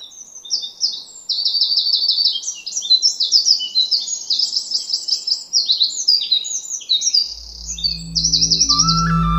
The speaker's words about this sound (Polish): Ten śpiew to jest śpiew strzyżyka. On jest bardzo głośny, ale to jest taki malutki ptaszek.